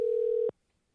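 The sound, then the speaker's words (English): A telephone line tone from a call being placed: one steady, pure, mid-pitched electronic tone that holds for about half a second and then cuts off into silence. “So on that note, let's start by giving Matt a call.”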